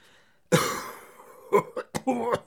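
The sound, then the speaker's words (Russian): A miner coughs: one long, harsh, rasping cough, then a few shorter, choppy coughs and throat-clearing bursts, loud against otherwise quiet surroundings. “Шахтер распахнул дверь и закашлялся.”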